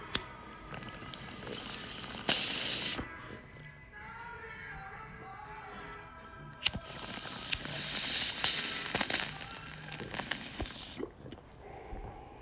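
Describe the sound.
Airy, hissing draws through a pipe packed with an overfilled bowl: two long breathy inhalations separated by a quieter pause, fairly soft overall.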